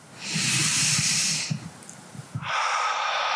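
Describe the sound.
A long, breathy exhale hisses steadily for over a second, then after a short pause another airy breath follows.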